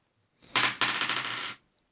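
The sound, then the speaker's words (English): Dice rolled during a game make a quick rattling clatter lasting about a second, with a sharp second burst partway through, then silence. “1 more dice, and another dice falls down from the ceiling, I'm not actually going to show you what's on this dice. Who wants to roll it?”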